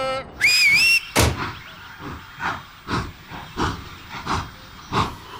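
A departing train is signalled by one shrill, high conductor's whistle. Regular hissing chuffs follow as the engine pulls away, repeating at an even rhythm.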